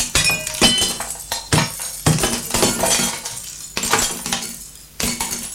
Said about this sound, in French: a cassé la vitre de la fenêtre